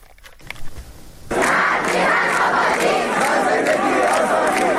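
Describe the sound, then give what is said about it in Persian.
Protesters shouting at a university protest in Iran: a crowd breaks into loud, sustained shouting and chanting after a quieter opening, and the roar stays steady to the end. “صدای معترضان این روزها در همه جای ایران بلند است. در دانشگاه ها هم این اعتراض ها همچنان تداوم دارند.”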